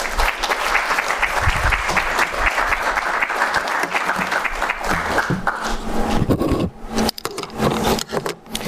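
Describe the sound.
Audience applause welcoming a poet to the stage at a reading in Concord: dense, loud, sustained clapping that thins out and breaks into a few scattered claps near the end.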